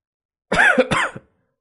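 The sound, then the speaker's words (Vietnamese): A single strained, voiced cough bursts out for under a second, then stops, from a man coughing up blood after a grave wound in battle. “Hắn không ngừng ho ra máu, lần đầu tiên chịu trọng thương như vậy trong đại chiến.”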